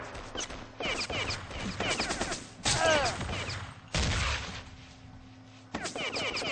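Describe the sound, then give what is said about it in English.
Gunfire is traded during a video game match, with several bursts of rapid, sharp shots separated by brief pauses and punctuated by heavier blasts. “An exchange of fire here.”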